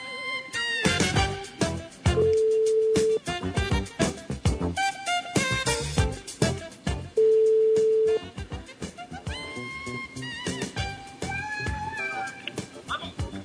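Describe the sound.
Two steady, level-pitched ringback tones, each about a second long, sound as a phone call is placed, heard over busy music and talking voices.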